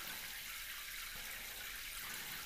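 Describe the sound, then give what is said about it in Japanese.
Slightly hot running water rinses a person's head at the end of a hair wash, a steady, faint, even hiss of flowing water with no pauses. “少しだけ熱いお湯でこれで流し終われば”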